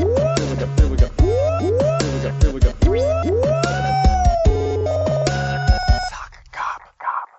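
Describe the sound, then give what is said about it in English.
A siren sound effect cues first-time callers with repeated rising whoops over a pulsing electronic beat, several in a row, before the pattern breaks into a few fading tones at the end. “Let's play the siren for the first time callers.”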